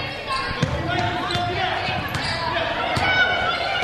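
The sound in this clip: A basketball dribbled on a court during a game, including a crossover dribble; several sharp rhythmic bounces thump through a steady bed of play-by-play talk.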